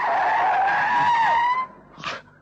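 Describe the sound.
A car rushes past with its tires skidding, a loud sustained squeal with a wavering tone that cuts off abruptly, followed by a short burst of noise.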